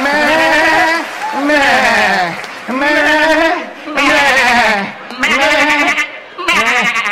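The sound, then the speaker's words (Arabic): Sheep bleating, several wavering, nasal calls in close succession, loud and separated by brief pauses. “I know it, I know it. It's a sheep.”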